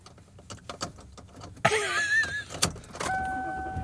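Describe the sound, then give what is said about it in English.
A car being driven home on the road, with steady low road rumble, a few sharp clicks and brief whistling tones over it, and a sustained hum near the end. “And I am driving home.”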